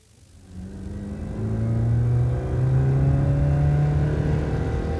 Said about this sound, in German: Na, hättest du Lust? Auf eine kleine Spritztour?